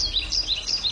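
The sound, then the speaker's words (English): Birdsong in open rural countryside in northern Baltimore County: a few thin, high chirps and tweets in quick succession over a faint low background rumble, with no voices. “This is the sound of open space in northern Baltimore County.”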